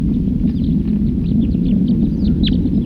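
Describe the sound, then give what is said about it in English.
A wild bird sings in song flight, giving many thin, high chirps and short whistles with one stronger note near the end, all faint against a steady, loud, low rumbling noise. “Another wild bird. In flight. Song flight.”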